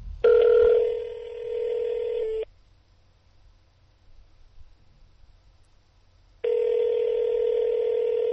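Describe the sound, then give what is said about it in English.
Telephone line beeping on a busy line, heard as two long steady tones with a stretch of near silence and faint line hiss between them. “He's too good to pick up his phone. You can tell he's on the line with someone else because it's beeping.”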